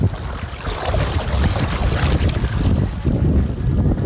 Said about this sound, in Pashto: خو تاسو به دغه د اوبو غږ اورئ، زه ورنږدې کېږم.